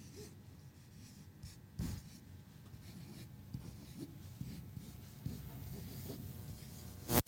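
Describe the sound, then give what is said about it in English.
Faint soft scratching and rubbing of a word being written down by hand, a few slightly louder strokes within a quiet, steady stretch, with no talk. “I'm going to write a word down here, and I want you to look at this word”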